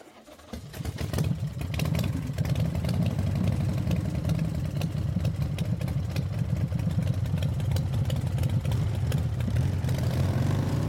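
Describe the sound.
A motorbike engine catches and settles into a steady idle, a loud, low, rumbling throb that runs evenly for about ten seconds.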